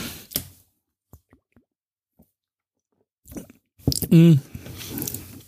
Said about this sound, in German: Also ist so ein Alster von Astra halt. Und das öffne ich jetzt mal.